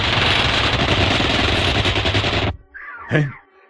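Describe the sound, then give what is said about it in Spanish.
Rapid machine-gun fire rattles loudly and continuously for about two and a half seconds, then cuts off abruptly, leaving a short, harsh cry alone afterward. “Kazmar hace funcionar su metralleta contra Hasil.”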